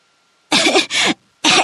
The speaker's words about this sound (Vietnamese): Nó mở miệng ra và lập tức nuốt phải một bụng tro. Nó ho.